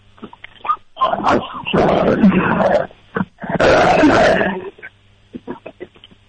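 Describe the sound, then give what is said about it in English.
A dog growls so deeply and fiercely that it resembles a tiger's roar. There are two long, loud, rasping bursts with several shorter grunting snarls before, between and after them. “That dog sounds like, you sure that's a dog? Yeah. Sure that's not a tiger?”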